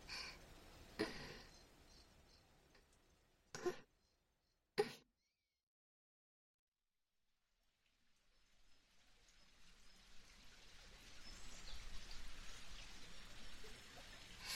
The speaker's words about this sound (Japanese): 近くに小川が流れるロケーションにしてみました。